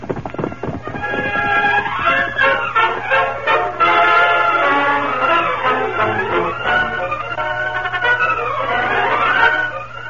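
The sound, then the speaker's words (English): A horse whinnies repeatedly over clip-clop hoofbeats. The neighs are loud and shrill, rising and falling in pitch, and carry on continuously with no voices. “Get him up, Scout. I'll ride to meet the Masked Man. Come on, Victor.”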